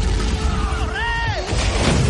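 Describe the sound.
A dragon breathing fire, as a fantasy film sound effect: a loud, sustained roaring rush of flame, with a tonal cry arching up and then down in the middle of the blast.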